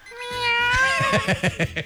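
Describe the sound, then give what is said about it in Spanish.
Cat meowing: one long, drawn-out, wavering meow followed by a rapid series of short, rhythmic meows, loud and with no talk. “¿cómo maulla el gato?”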